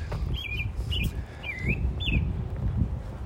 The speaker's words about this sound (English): I was going to just let you enjoy some of that bird song.